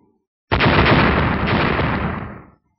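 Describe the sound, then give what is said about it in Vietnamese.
A loud explosive blast as a golden spear strikes a bone shield in a fantasy tale, bursting in suddenly as a dense roar that holds for about two seconds before trailing off. “Ba tiếng nổ lớn vang lên”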